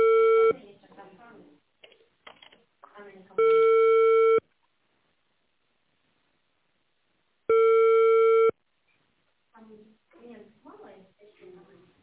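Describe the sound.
Telephone line tones sound while a call is being placed: three steady one-second beeps spaced a few seconds apart, with people talking before and after them.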